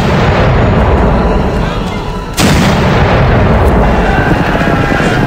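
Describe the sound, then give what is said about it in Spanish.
Cannon shots fired one after another as a signal for an attack in a revolutionary-era battle. A sharp, heavy boom bursts out partway through a loud, continuous rumbling roar of battle noise. “cañonazos disparados uno tras otro.”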